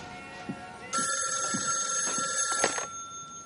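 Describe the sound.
A telephone rings in one long, steady electronic trill lasting about two seconds, moderately faint, then stops.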